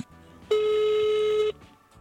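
A single steady telephone tone from a call being placed lasts about one second, even and unbroken, then stops, leaving faint background noise.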